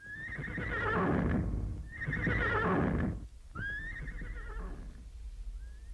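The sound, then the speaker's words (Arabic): A horse neighs loudly in three long whinnies, each rising sharply then trailing off, with short pauses between, and the start of a fainter fourth call at the end. “وارخت كل منهما العنان فانطلق بها الحصان وكأنه يسابق الرياح حتى وصلت إلى بيت أم صباح”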